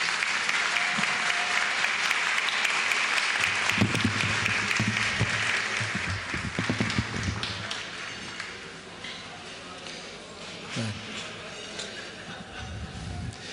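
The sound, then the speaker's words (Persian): Audience applause at an evening event, with dense steady clapping for about eight seconds that then thins out and grows quieter toward the end. “حالا هر چی میخواد برش دست بزن.”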